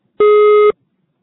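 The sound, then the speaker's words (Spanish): A voicemail beep tone sounds before a message is recorded: a single loud, steady electronic tone at a constant pitch, lasting about half a second, alone. “Por favor, deja tu mensaje después del tono. Si necesitas volver a grabar, marca el signo de número y espera instrucciones.”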